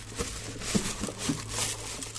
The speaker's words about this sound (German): Mein Instrument ist die Keksdose, da ist Reis drin und darüber ist so ein bisschen Klebeband.